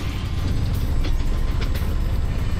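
Grinding from the gearshift of a new tuk-tuk driven in left-hand traffic: a steady, loud, harsh mechanical grind and rattle runs throughout, broken by a few sharp clicks, with no voices.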